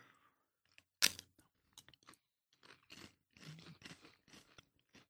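Lay's Reuben-flavored potato chips crunch as they are chewed. One sharp, loud bite comes early, followed by many softer, irregular crisp crunches, fairly quiet and without talk.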